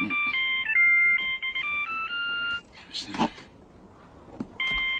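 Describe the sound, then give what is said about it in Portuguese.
An electronic telephone ringtone plays a stepped, bright melody of steady tones for a couple of seconds. It breaks off briefly, with a short noisy burst in the gap, then the same tune starts up again. “Telefone, querida.”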